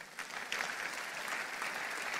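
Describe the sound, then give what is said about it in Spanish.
A church audience applauds during a sermon, a steady, fairly soft patter of many hands clapping together without pause for about two seconds. “Si lo crees, dale un aplauso al Señor.”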